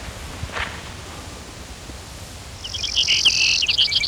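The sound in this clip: Brewer's sparrow song: a high, buzzy, rapid trill bursts out over steady background hiss near the end, after a faint short chirp early on.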